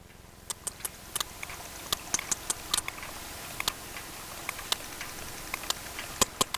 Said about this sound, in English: This is the sound of a sperm whale recorded off the coast of Ibiza.